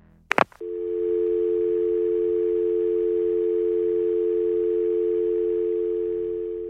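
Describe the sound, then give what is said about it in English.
Telephone dial tone after the caller hangs up: a brief click and clatter at the start, then a steady, loud, unbroken mid-pitched hum that holds level to the end. “Then the caller would hang up.”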